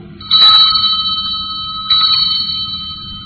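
A bell struck twice, each blow opening into a bright, sustained ringing tone with several steady overtones that slowly decays, the second strike coming well after the first over a low background hum.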